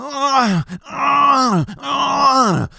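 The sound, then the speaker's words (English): A man groans in three drawn-out, strained bursts, each sliding down in pitch at its end, presented as a man being electrocuted in a bathtub. “What is that noise, you ask? That is an Asian man being shocked alive. He's being electrocuted in a bathtub.”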